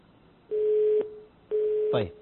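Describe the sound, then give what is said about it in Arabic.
Telephone busy tone on a call-in line after the caller's line drops: two steady, mid-pitched beeps of about half a second each, separated by a short gap, with a brief voice cutting in at the very end. “طيب انقطع الخط”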